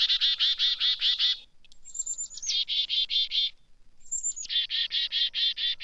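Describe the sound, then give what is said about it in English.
Chickadee alarm calls warning of a nearby predator: rapid runs of buzzy, evenly spaced 'dee' notes, broken twice by high, thin introductory whistles, repeated three times in quick succession without pause. “That's a chickadee call. It's a warning of a nearby predator.”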